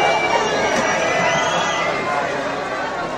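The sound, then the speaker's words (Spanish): A crowd boos at a Pride concert in Murcia, a loud, unbroken wall of many voices that holds steady throughout. “Se celebra el orgullo en Murcia con fiestas y conciertos. Alguien ha decidido que las tetas son una línea roja. El público abuchea.”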